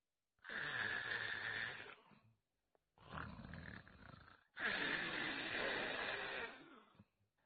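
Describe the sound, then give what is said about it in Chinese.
A voice imitates loud snoring for a man asleep in bed, in three long, rasping, roaring breaths, each swelling and then dropping away, with short pauses between them. “脑袋一挨枕头这就打呼噜。程咬金这呼噜打得开绝，声如海潮，”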